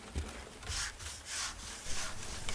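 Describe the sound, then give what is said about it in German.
A brush scrubs a wall as a caretaker works at chalk drawings, giving a few soft, rasping strokes in an uneven rhythm, faint and alone. “Ein Hausmeister schrubbt mit einer Bürste an der Mauer herum.”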